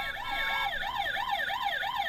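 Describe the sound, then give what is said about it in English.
A toy fire truck's electronic siren wails rapidly up and down in quick, even cycles, a high, thin, fairly quiet tone that repeats steadily throughout. “It would have to be just for a test because that's the quietest fire truck I've ever heard.”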